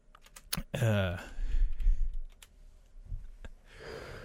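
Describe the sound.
Keystrokes click as a search is typed on a computer keyboard, with irregular bursts of tapping mixed in with a person talking.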